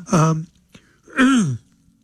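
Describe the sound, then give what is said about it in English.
Throat clearing from a person with a frog in the throat: two rough, voiced bursts, the second longer and sliding downward, separated by a brief click, with no other talk. “sorry about that. I don't know where that came from. The frog in my throat.”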